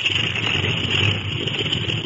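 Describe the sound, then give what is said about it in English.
Aircraft motor warming up before takeoff, a steady, unbroken droning rumble with a bright hiss layered over it. “Well, they're warming up the motor.”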